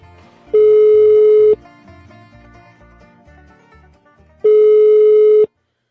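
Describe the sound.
A telephone rings on the line while a call is being placed: two long, steady buzzing ring tones separated by a pause of about three seconds, with a faint low hum between them.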